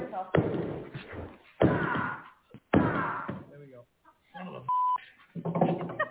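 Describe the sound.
Smashing open a sealed, locked gun travel case: a few heavy blows land as loud thuds, with a man talking between them.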